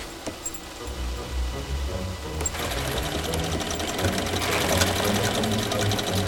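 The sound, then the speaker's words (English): Sewing machines whir steadily in a workroom among fur pelts. The mechanical hum grows louder and denser partway through, with a rapid rattling texture throughout. “threads her way amid the sewing machines and fur pelts”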